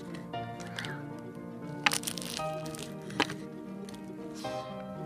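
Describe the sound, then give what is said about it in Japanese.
Crisp crackling crunches as teeth bite into flaky, salty puff pastry filled with custard cream. Two sharp cracks stand out over a low, steady background. “もうねあのサクサクのパイ生地の中にねめちゃくちゃ美味しいカスタードクリーム的なものが入っておりましてちょっと一口かじらせていただきますよいきます”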